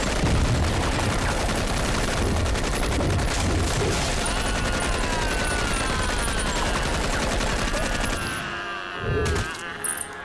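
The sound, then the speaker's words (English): Rapid, unbroken gunfire from two guns in an action film scene as a character slides across a parquet floor. Shots rattle densely for about eight seconds, then cut off, leaving a few scattered sounds. “there's a really overblown scene of Finn sliding along a parquet floor firing two guns without pause. He eventually falls onto his ass and slides on his ass while still firing the guns.”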